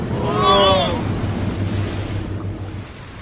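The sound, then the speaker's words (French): Sea waves and wind at the shore make a continuous rushing wash of noise, loud at first and then holding steady with a low, rumbling roar beneath it. “Ouf ! Voilà la mer.”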